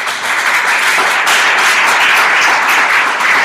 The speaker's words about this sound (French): Est-ce qu'on peut acclamer le Seigneur simplement?